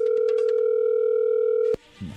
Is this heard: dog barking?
no

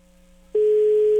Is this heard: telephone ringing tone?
yes

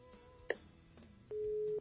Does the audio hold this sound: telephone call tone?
yes

